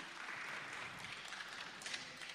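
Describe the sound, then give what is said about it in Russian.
An audience claps together to honour guests at a church gathering, a steady wash of many hands lasting a few seconds, even and moderately quiet throughout, with no talk heard. “Мы еще раз похлопаем для вас.”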